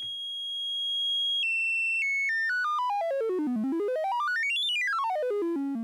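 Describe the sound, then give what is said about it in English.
Ordered synthesized tones in an old 1970s video game style: a held high electronic note, then stepped notes that descend, climb back to a high peak and fall again, bright and buzzy at a steady loudness. “it sounds very similar to old school games. And it is in fact very close to the way that those 1970s games would have produced sounds.”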